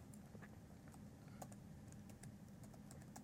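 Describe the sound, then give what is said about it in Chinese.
Faint typing on a computer keyboard as a username and password are entered: a quick, irregular run of light key clicks over a low, steady background hum. “我输入一下用户名密码，点击 OK， 这样的话它就连接上了”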